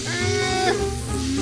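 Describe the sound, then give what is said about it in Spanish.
Goats bleat with a loud, nasal, wavering cry of rich harmonic tone that continues for most of the moment. “Las cabras ahí.”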